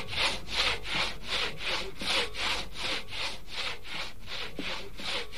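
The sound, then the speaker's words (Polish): A saw cutting through bone, used as a radio comedy sketch sound effect, rasps in many even back-and-forth strokes with a steady rhythm, loud and alone. “Przepiłowałam zręcznie kość.”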